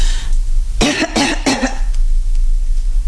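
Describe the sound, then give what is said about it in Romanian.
A woman coughs at a doctor's request during a medical examination: three quick, forceful coughs in a row, loud and harsh, then a steady quiet background. “Respirați? Încă o dată? Tușiți? Încă?”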